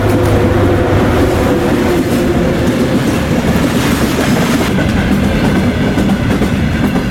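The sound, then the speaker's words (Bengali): A train passes a railway level crossing with a loud, continuous rumble and a rhythmic clickety-clack of wheels on rails, steady throughout with no voices. “থমকে দাঁড়ালাম রেলগেটের কাছে। আর তার ঠিক কিছুক্ষণ পরেই আমাদের সামনে দিয়ে চলে গেল এনজিপির দিক থেকে আসা একটি ট্রেন।”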